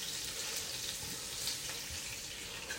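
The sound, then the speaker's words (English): Marsala wine going into a pan of garlic in olive oil sets off a steady, even sizzling hiss that carries on without a break and without any voices. “But now I'm going to put in the little Marsala wine as well,”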